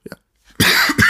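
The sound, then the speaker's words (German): Two harsh, loud coughs from a speaker in a German-language conversation, preceded by a few faint breathy sounds. “muss husten”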